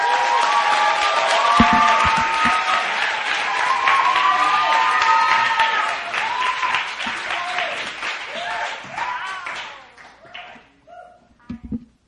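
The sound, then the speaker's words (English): A church crowd applauds to welcome a speaker to the front for a testimony, loud, dense clapping with a little cheering, holding steady for several seconds before thinning out and fading into scattered claps near the end. “All right, let's put our hands together. Let's welcome up Judy Kim.”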